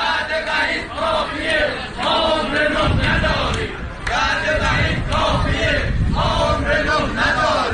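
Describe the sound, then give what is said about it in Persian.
Retired telecom workers at a Monday protest in Tabriz chant slogans in unison. The crowd's voices are loud and rhythmic, with repeated phrases broken by short pauses. “صدای اعتراض بازنشستگان مخابرات تبریز در روز دوشنبه.”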